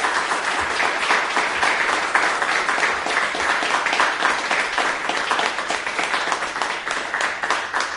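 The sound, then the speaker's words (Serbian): An audience applauds at the close of an evening event carried on a radio broadcast, with many hands clapping in a thick, even roar that stays loud and steady throughout. “Jedan aplauz, molim vas, samo za kraj ovog radijskog prenosa.”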